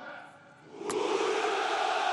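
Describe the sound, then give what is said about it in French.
A patriotic crowd shouting hurrah on Red Square during a military parade: a sharp click, then a broad massed roar of voices that swells and holds loud to the end. “Les hurrahs patriotiques résonnent sur la place rouge.”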